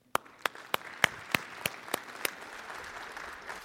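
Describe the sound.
Applause from a church audience welcoming a preacher at a morning service, with eight sharp, evenly spaced claps over a softer, continuous patter of clapping.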